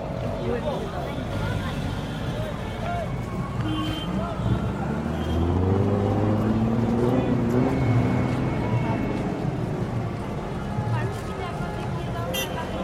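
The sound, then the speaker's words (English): Dense, continuous car and traffic noise fills crowded town roads busy with tourists, trucks and traders as a driver accelerates. The rumble swells in the middle and stays loud throughout. “Nair put his foot down on the accelerator and navigated the busy roads of Sanali, thronging with tourists, truck drivers, and traders.”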